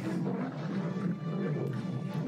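Lions attacking in a movie, a rough, continuous growling rumble that holds steady without clear breaks from start to finish.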